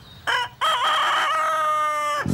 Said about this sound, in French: Tous les matins, la basse-cour se réveille avec le chant du coq.